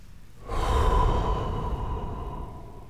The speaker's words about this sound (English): When I breathe like that, I've entered what's called Nidra meditation.